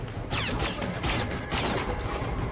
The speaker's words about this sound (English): Those are shots.